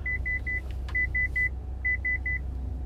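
A car backs into a driveway, its reversing alert sounding steady high beeps in three groups of three over a low engine rumble, with no talk.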